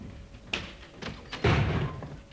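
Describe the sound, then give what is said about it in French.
A front door slams in a stage farce: a few lighter knocks and taps lead to a heavy, booming thud near the end, and a dull resonance lingers after the final impact. “En faisant claquer la porte d'entrée, il a cru que je filais et il s'était lancé à ma poursuite.”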